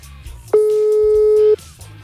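A telephone busy signal sounds on an outgoing call: one steady, mid-pitched electronic tone that lasts about a second, with quieter low sounds before and after it.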